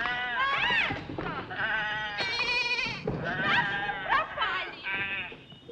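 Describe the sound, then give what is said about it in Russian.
A ram bleats in a film scene, giving a run of loud, wavering, nasal bleats in quick succession, some rising and falling in pitch, with no pause between them. “Отпускает, потому что из-под кровати вылезает баран. Мужчина заталкивает барана под кровать”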